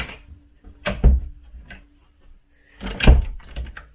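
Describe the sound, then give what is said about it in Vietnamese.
A wardrobe door being shut after a doll is put inside, in the Sallie House: two dull knocking thuds about two seconds apart, with small clicks and rattles around them. “Bỏ ở đây. Ok, nhớ nha. Rồi, đóng tủ lại.”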